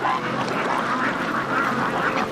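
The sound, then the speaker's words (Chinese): Many ducks on a village duck farm quack together in a dense, continuous chorus of overlapping, nasal calls. “百干村这个鸭子养得太好了。”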